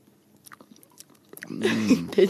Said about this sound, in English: Okay, so we are taste testing. Piece. Okay, I took too much. Okay, let's go.